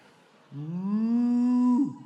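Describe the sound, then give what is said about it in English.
A single long cow moo rising slightly in pitch and then breaking off abruptly, heard alone over near silence; no sheep is heard. “and the prophet of God says, if you've done everything I've told you to do, why am I still hearing sheep and cow noises?”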